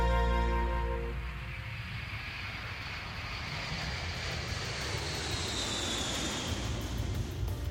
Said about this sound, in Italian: Allora, non riesco a riconoscere il rumore, ma secondo te è decollato o atterrato?